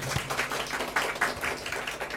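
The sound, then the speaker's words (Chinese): A church audience applauds to welcome a guest speaker, a steady wash of many hands clapping at moderate loudness. “我再掌声欢迎”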